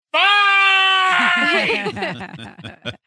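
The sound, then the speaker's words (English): A person screams at the top of their lungs in an elevator, a loud, steady, high-pitched cry lasting about a second before it breaks into choppy, stuttering bursts. “I screamed”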